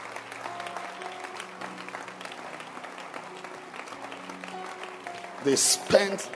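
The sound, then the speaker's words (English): A church audience claps hands in a steady, speckled patter beneath a voice and sustained tones, with a louder burst of sound near the end. “Yes, clap your hands for them.”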